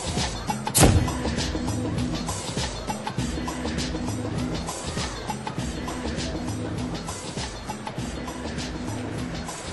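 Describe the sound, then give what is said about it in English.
A pickup truck drives with a steady, rumbling engine and road noise that stays even throughout, broken by one sharp burst near the start. “Hey, that's Richard Oakes driving the pickup.”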